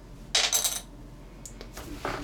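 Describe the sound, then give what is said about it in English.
Dice rattling and tumbling after being shaken in a hand: a bright clattering burst, then a few small clicks and a final short rattle. “No, shake it in your hand. That's the good dice rolling technique.”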